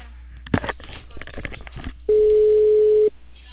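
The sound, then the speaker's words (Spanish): A telephone ringing tone on an outgoing call: after some talk, a single steady mid-pitched tone sounds for about a second and then stops. “Ya lo estoy llamando.”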